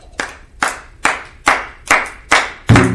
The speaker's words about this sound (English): But there's a technique on how to clap. You look at, you do your hand like this, and then do it here.